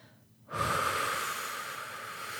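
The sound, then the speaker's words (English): A person taking a deep breath: one long, airy, steady rush of breath starts after a brief near-silence and holds at an even level to the end, with no talking. “taking some breaths now”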